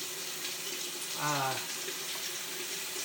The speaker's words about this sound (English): I've gotten my potatoes out, and I am commencing the rinsing process of the